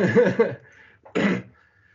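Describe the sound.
Coughing into a microphone: a quick pair of raspy coughs, then a short pause and one more harsh cough, each loud and up close.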